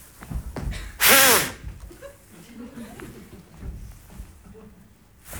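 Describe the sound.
A person blowing hard into a police breathalyzer at a roadside check, one loud, breathy burst of about half a second set among people talking.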